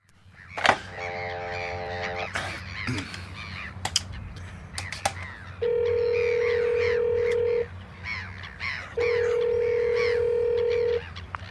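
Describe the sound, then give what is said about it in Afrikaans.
Telephone tones from a call placed from an apartment: a short stacked tone, then two long steady ringing tones, each about two seconds, with bird calls chattering in the background. “Ek sal van my woonstel af skakel.”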